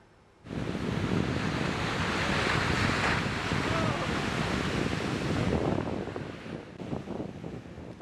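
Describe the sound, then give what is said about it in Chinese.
Huge ocean swells and surf from a hurricane crash at Newport Beach, California. A loud, continuous rushing roar of breaking waves is mixed with buffeting wind noise, starting abruptly and easing slightly near the end with scattered splashes. “受玛丽影响，美国加州纽波特海滩五号出现巨大涌浪，吸引了不少游泳及冲浪爱好者前去挑战。”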